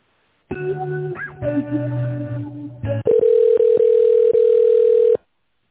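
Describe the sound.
A telephone line tone plays while a call is being transferred: varied tones come first, then a loud, steady hum-like tone with several short clicks until it cuts off abruptly.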